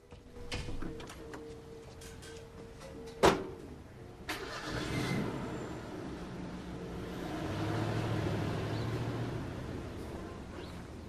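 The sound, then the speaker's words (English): A truck's engine starts as someone drives off, coming after a sharp thud. It settles into a low, steady running drone that swells gently and stays quiet overall. “Winston picks up his notebook and the letter and leaves. Through the window, Don watches him get in his truck.”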